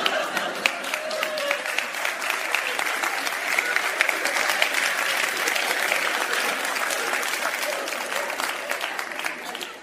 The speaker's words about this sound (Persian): تو دست زدن هم اختلاف فاز دارن ها